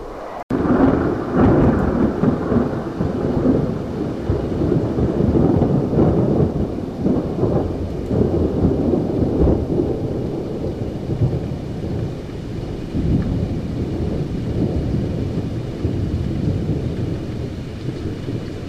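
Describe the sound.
Heavy rain pours down in a dense, unbroken roar for the whole stretch, with deep rumbles of thunder rolling through it.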